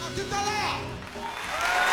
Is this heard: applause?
yes